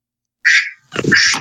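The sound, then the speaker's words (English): A duck quacks twice: a short, bright call, a brief pause, then a longer, raspier quack. “What was that? A quack? Sorry about that.”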